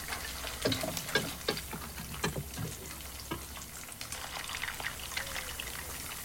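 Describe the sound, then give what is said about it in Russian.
Pancakes (oladyi) frying in a pan in a kitchen: a steady, bright sizzle runs throughout, dotted with many sharp little pops and crackles of hot oil. “Рыжеволосая женщина в надетом нараспашку на ночную рубашку пестром халате жарит оладьи.”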